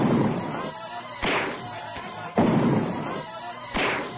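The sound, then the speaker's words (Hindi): Gunshots fired at a man in a tense dramatic confrontation ring out as a few loud, sharp booming cracks. Each blast has a short rumbling decay, and the shots are spaced roughly a second apart. “पहले गोली से बच गया तो ये ले दूसरी गोली।”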